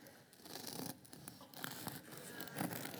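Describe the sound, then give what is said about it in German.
Crunchy bread crust of a fresh loaf being cut with a knife, sawn rather than pressed: faint, irregular crackling rasps and scratchy strokes, with no talking. “Dieses Geknusper, schneiden, nicht drücken.”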